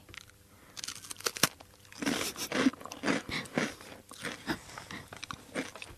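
Crunchy chewing of Happy Turn rice crackers, a Japanese senbei snack: a few sharp bites followed by many rapid, brittle crunches in an irregular rhythm, fairly quiet, with no talking.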